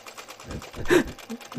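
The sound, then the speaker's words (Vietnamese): The engine of a longtail boat runs on a river at night, making a rapid, rhythmic put-put chugging of fairly loud, irregular pulses. “Người lái đò tên Bảy vội quấn dây giật cái máy đuôi tôm nổ bành bạch.”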